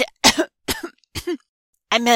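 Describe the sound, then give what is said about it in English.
Three brief, rough coughs separated by short pauses, then a longer voiced throat clearing from someone with something caught in the throat. The sounds are moderately loud and stand alone, with no talk around them. “Sorry. I had a little something caught in my throat.”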